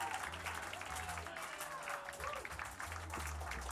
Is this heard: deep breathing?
no